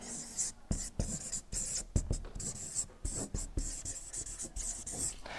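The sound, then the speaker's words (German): Marker strokes on a flipchart as the word Schöpfung is written: many short, squeaky scratching strokes in uneven bursts separated by brief pauses. “Ich schreibe jetzt mal hier auf meiner Flipchart äh, Schöpfung hier hin.”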